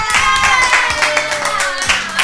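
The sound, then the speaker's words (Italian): Applause follows a counting game on a children's radio show: a run of sharp, fairly loud claps over a steady tonal musical sound, lasting about two seconds. “Applauso!”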